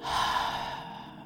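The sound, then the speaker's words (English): A single soft, airy breath during a meditative breathing exercise, heard faintly and alone with no talk. “Breathe in, breathe out,”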